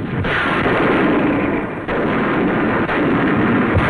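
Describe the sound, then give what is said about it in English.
Naval and rocket bombardment from warships and rocket craft before the amphibious landing at Incheon in the Korean War: a dense, loud, continuous roar of explosions and rumbling fire with a couple of brief dips. “A bombardment from warships and rocket craft prepared the ground for Korea's D-Day.”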